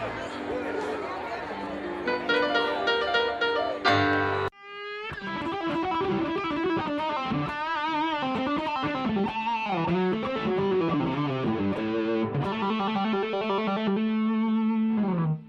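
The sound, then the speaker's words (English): An electric guitar with heavy effects plays the A blues scale, single notes following one another at a moderate, even pace after a brief opening passage. “And this is the sound of the blues scale.”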